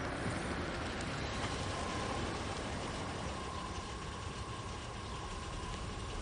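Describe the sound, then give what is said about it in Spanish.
Car engine idling at the door of a house, a steady, even rumble with a faint sustained hum running through it, unbroken and without clear peaks for the whole stretch. “Luego, la madre de Nicole llega en coche a la puerta de casa de Glenn.”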